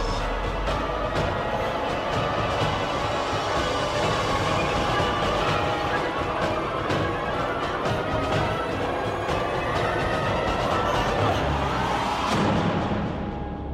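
A train running on rails gives a steady, loud rumble with rattling wheel clatter and metallic squeals, continuous throughout and thinning out briefly near the end.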